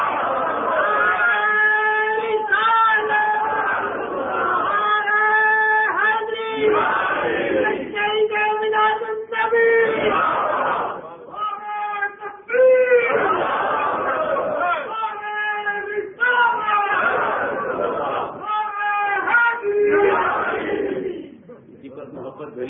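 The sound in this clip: A crowd chants the Islamic Takbeer slogan in unison in reply to the call at a religious gathering for Eid Milad-un-Nabi. Loud, massed voices repeat the phrase in several sustained bursts, with short breaks between them.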